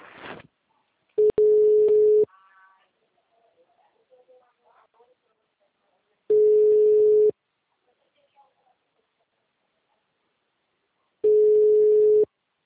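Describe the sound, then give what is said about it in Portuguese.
Telephone ringback tone on a call to a client: three identical long, steady mid-pitched beeps of about a second each, evenly spaced with long silent gaps between them. “Tô ligando pro cliente aqui. Pediu pra ligar agora.”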